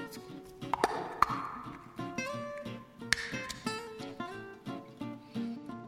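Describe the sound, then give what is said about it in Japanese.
Opening a One Cup sake jar produces a series of light metallic pings, taps and small clinks, faint and irregular, with sharper clicks scattered throughout. “ワンカップなんか開けたことないもんだからね、若干こぼしましたよ、私今。”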